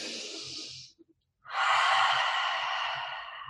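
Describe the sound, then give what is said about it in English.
A deep breath drawn in through the nose: a long, loud, airy hiss lasting about two seconds. It follows a shorter breathy sound and a brief silent pause, and fades slightly at the end. “Now take a deep breath in through the nose.”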